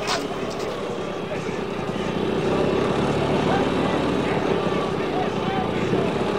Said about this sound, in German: Da kommt ein Polizist mit einem Motorrad.